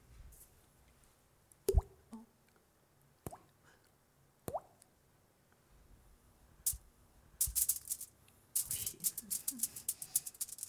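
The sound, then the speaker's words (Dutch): Water dripping: a few separate plops ring out with pauses between them, then a quicker patter of many small drips builds toward the end. “Meis voelde een drup.”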